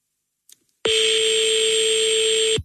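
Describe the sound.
A single loud, steady buzzing telephone ring tone holds one pitch for nearly two seconds and then cuts off while a call waits to be picked up, preceded by a brief faint click.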